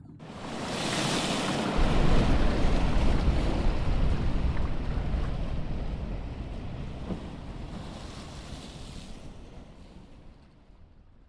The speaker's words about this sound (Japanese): 一匹一匹相手してやることないわね。一気に押し流してしまいましょう。